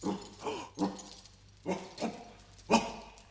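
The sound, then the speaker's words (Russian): A dog that has just woken and is climbing out of its kennel makes several short whimpering yips and barks in an uneven rhythm, fairly faint. “Проклятый пес проснулся и вылезает из домика. Да-да, высунул язык от жары.”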